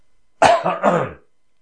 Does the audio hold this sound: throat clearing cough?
yes